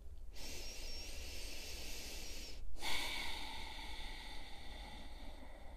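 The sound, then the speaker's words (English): Slow deep breathing during a guided exercise: a long, soft, airy breath of about two seconds, a brief pause, then a second long breath running to the end, quiet and alone. “So if you can right now, taking a deep breath, first into the number one.”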